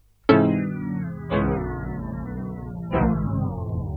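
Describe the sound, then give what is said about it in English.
Piano pitched down in frequency: three struck notes, each sliding steadily downward in pitch as it rings and fades, with the later notes overlapping the decaying earlier ones. “I just thought that the piano would just go down in frequency. And it sounds something like this.”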